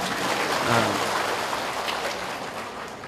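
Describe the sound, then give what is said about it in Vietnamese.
Audience applause at a Buddhist dharma talk: a dense, steady patter of many hands clapping for about three seconds, evenly sustained with no speech over it. “Vỗ tay khen mình đi.”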